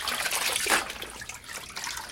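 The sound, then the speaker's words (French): Water rinsing a person who is standing up to bathe: a steady, broad splashing wash with a brief louder surge near the start, and no voices. “Mets-toi debout, je vais te rincer.”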